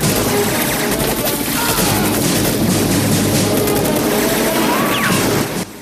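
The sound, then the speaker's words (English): Explosions and gunfire from a Rambo film battle as huts are blown up and Russian and Vietnamese soldiers are gunned down. Loud crashing blasts and volleys run without pause in a dense, chaotic din. “Rambo sneers with rage as he blows up countless huts and guns down dozens of Russian and Viet soldiers.”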